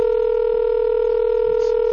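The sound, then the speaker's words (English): A steady telephone tone on a slow phone system, one continuous pitched tone that holds evenly for about two seconds before cutting off. “This phone system is just the worst. It's the slowest. It's like really trying to call somebody. Is it four rings until you get the”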